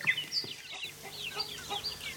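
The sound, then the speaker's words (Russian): Chickens clucking in a henhouse: quiet, scattered short clucks mixed with high chirpy calls in many small overlapping bursts, soft throughout. “Куда ты меня привела? Это же курятник.”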